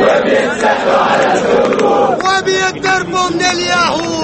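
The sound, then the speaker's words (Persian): Loud, massed shouting voices of a protest crowd of tens of thousands in Tahrir Square, Egypt, forming a dense, steady roar with chant-like calls rising above it throughout. “تظاهرات روز جمعه در مصر با شرکت ده ها هزار تن در میدان تحریر، همان جایی که آغاز اعتراض ها علیه رژیم حسنی مبارک را شاهد بود، صورت گرفت.”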